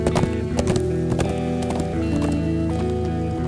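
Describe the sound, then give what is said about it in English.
Horse hooves clip-clop in a steady, brisk rhythm as a rider comes into a town near dawn, with many hoofbeats running evenly throughout. “It was nearly dawn when Bill rode into Tamarack”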